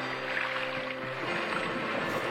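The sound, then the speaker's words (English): Water rushes and washes against the hulls of yachts racing on the water. It is a faint, steady sloshing with a low undertone. “So when you hear the noise of the yachts,”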